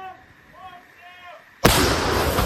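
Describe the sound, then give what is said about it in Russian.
A single loud blast from a Ukrainian brigade's artillery gun firing during fighting near Bakhmut. It comes suddenly after a quiet stretch with faint voices. “Это артиллерия 22-й бригады ВСУ. Она сейчас помогает украинским подразделениям, которые как раз штурмуют Бахмут с флангов.”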